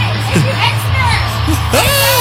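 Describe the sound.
A big crowd cheers and whoops, with sharp rising and falling shouted calls over a dense, steady roar of voices.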